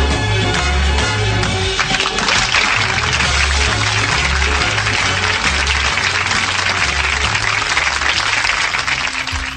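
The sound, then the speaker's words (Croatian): Loud, sustained applause from a crowd fills the whole stretch as a dense wash of clapping, with a low rhythmic pulse running underneath. “spontani aplauzi za ove fine informacije koje stižu iz časa u čas.”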